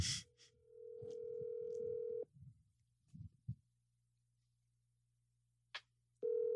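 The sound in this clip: Ringback tone from an outgoing phone call on speakerphone. A steady mid-pitched tone lasts about two seconds and is followed by a long pause with a few soft rustles. The tone starts again at the end, over a low constant hum.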